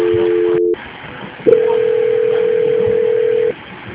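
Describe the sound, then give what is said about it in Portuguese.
Telephone line tones play as a dropped call is transferred again: a short steady tone, a brief gap, then a longer steady tone at a slightly higher pitch, clear and loud with no talking. “caiu, vou transferir de novo, tá?”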